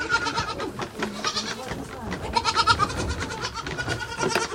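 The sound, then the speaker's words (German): Young goat kids bleat at a bucket feeder fitted with six teats, several overlapping cries of varied pitch rising and falling in a busy, restless chorus. “Den etwas älteren Zicklein bringe ich bei, immer zu sechst an einem Eimer mit 6 Nuckeln zu trinken. Manche Lämmer wollen die anderen wegschubsen.”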